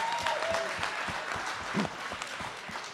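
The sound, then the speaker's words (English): Audience applause at an evening competition with judges: a steady, fairly faint wash of clapping that holds evenly for about three seconds. “Give yourselves a round of applause, huh?”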